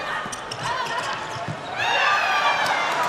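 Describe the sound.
A ball is struck on a serve in a match between China and Iran, a soft thud nearly buried under constant crowd noise and commentators' voices.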